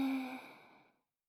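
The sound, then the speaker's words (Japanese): A deep sighing breath out during a medical chest examination with a stethoscope, strong at first and then fading smoothly to silence over about a second. “息を大きく吸って、吐いて、吸って、”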